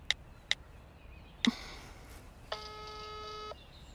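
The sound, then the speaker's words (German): Telephone call being dialed: three short keypad tones with a click, then a steady ringing tone that holds for about a second. “Eine Nachricht von Lukas und Johanna. Sie wollen wissen, was los ist. Ich rufe kurz zurück.”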